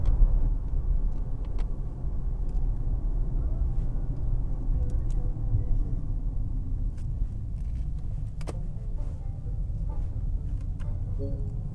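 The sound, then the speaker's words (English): A car drives with a steady, low engine rumble and road noise that stays even throughout, broken only by a few faint clicks and knocks. “All right, we're going to turn the traction control back on. Car is shifting.”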